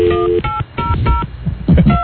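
Telephone keypad dialing tones beep in a quick series of several short, pure electronic notes of differing pitch over a narrow, phone-like line, separated by brief uneven gaps.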